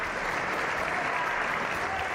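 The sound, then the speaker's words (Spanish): Applause in the Spanish Congress of Deputies as a session opens: dense, steady clapping from many hands, sustained and even throughout with no break. “A partir de ahora, esa será labor para Meritxell Batet, que ha sido elegida presidenta de la Cámara en una sesión que comenzaba con aplausos.”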